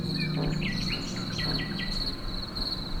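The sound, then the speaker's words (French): Crickets and nightingales singing by a roadside in the Pyrenean foothills: a steady, high cricket drone runs throughout while a string of rapid, varied bird phrases rings out over the first two seconds above a constant low rumble. “couvert par le chant des rossignols et des grillons, là, au bord de la route.”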